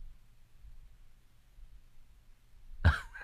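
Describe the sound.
A single short cough comes from a person recovering from an illness. It bursts out sharply after a stretch of near silence and low hum.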